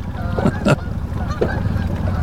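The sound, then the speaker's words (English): Geese honking outdoors near water where someone is fishing, a few short nasal honks standing out over a steady low background rumble. “There's your geese.”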